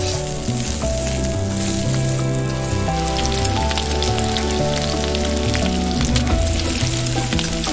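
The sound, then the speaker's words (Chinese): Fatty pork frying slowly in a pan as its fat renders into amber oil, a loud, continuous dense sizzle with crackling spatter throughout. “慢煸肥肉熬出琥珀色的油脂。”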